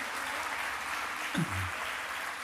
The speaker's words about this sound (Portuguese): Pode aplaudir Jesus, dá glória a Deus.